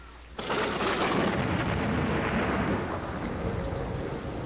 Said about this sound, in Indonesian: hujan turun deras sekali di hutan, angin bertiup sangat kencang. Akibatnya banyak pohon di hutan yang roboh.